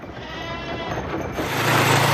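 Black goats bleat loudly in overlapping, wavering cries that continue throughout and grow louder toward the end. No one speaks.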